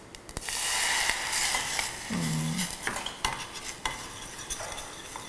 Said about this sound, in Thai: ครับเราเคี่ยวด้วยกันก่อนสักพักหนึ่งนะครับ